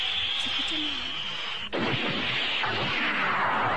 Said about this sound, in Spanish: Que venga la tormenta y el trueno haga temblar.